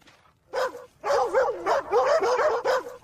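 Dogs bark and whine in bursts of yelping, whimpering cries. Some cries slide up and down in pitch, and short gaps separate them.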